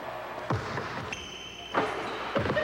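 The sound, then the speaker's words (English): A basketball dunk is replayed: a few heavy thudding ball impacts with a brief high tonal squeal between them, over steady background noise. “Let me just play that last little dunk again there”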